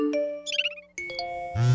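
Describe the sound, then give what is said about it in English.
Several phone text message notification tones play in quick succession: short chimes, a rapid tinkling jingle, then a fuller, sustained ringing tone at the end, with no talk. “You hear all that texting?”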